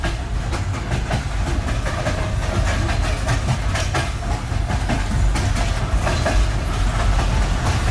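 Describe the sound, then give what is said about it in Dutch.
A passenger train rolls slowly into Kyiv. A steady low rumble and hiss run under many clattering clicks from the rails throughout. “Het is nu iets over zes in de trein. En de trein begint een beetje wakker te worden. Iedereen staat een beetje op. En langzaam rijden we dus echt Kiev binnen.”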